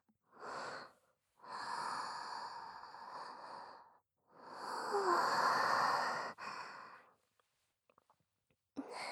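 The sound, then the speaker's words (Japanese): Deep, calming breaths from a flustered person trying to settle down: a short breath, then two long, drawn-out breathy whooshes separated by pauses, followed by quiet. “落ち着いて。深呼吸。”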